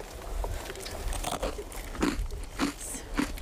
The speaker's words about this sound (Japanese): これがですね、はい、あの本当にこう個包装になってるんで、うん、こう登山中にも高度食として 便利です。シルコサンド